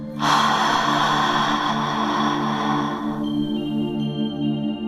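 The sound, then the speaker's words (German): A long, breathy open-mouthed exhale, as if fogging a mirror or glass, lasts about three seconds over a soft, sustained tonal drone that continues after the breath fades. “als würdest du einen Spiegel oder ein Glas anhauchen wollen. Das hört sich ungefähr so an.”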